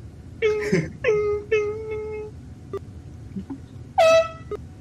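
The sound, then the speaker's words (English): Air horn blasts: a few short, loud, steady-pitched honks, with a longer held blast in the middle and a final burst after a pause, separated by faint clicks. “Well, the air horn I actually recorded, because it was an air horn that I had.”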